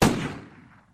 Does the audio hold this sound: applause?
no